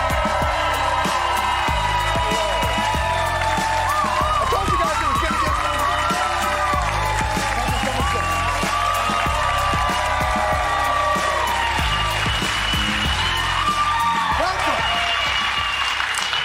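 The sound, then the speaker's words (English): A studio audience gives a standing ovation to two guests, with sustained loud applause, cheering and whoops that stay steady and unbroken for the whole stretch. “Very rarely do you get a standing ovation for the guests, but clearly they think, Muslim and Jew sitting next to each other? How can that be?”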